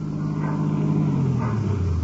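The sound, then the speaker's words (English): A car engine coming around the corner gives off a steady low rumble and hum whose pitch slides gradually lower partway through. It is fairly loud and heard alone, with no talk. “Believe that's Mrs. Herger's car now, coming around the corner.”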